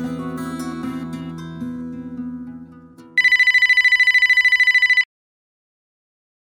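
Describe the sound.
A telephone ringing with a fast, loud electronic trill for about two seconds after fading music, then silence and the brief start of another ring.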